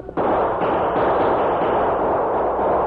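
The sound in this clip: Gunfire roars in a shootout at a mountain pass. After a brief quieter start, overlapping shots merge into one continuous loud, dense rumble of fire lasting nearly three seconds, with no separate reports standing out.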